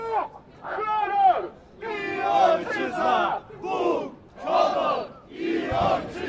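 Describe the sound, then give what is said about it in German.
A crowd at a Polish Independence Day march on 11 November chants the nationalist slogan God, Honour and Fatherland. Many voices shout in unison in a rhythmic series of bursts with short gaps between phrases. “So klang es in Polen im letzten Jahr am 11. November, der Slogan Gott, Ehre und Vaterland. Denn dieser Tag ist in Polen national sehr aufgeladen.”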